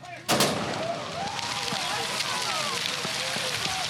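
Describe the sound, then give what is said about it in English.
A single sharp gunshot from a starting gun opens a 50th-anniversary cross-country ski race in below-freezing weather, followed by steady, dense crowd noise with voices. “hundreds of skiers and spectators waited for the starting gun at the 50th anniversary of North America's largest cross-country ski race.”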